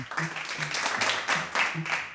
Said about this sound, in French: Je crois qu'on peut vraiment vous applaudir.